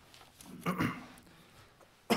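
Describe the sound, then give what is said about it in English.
Two coughs from someone with seasonal allergies: a longer, rough burst and then a short, sharp one at the end, both standing out against a quiet background. “Excuse me. I've been dealing with a little bit of seasonal allergies, and I've had a little bit of cough myself.”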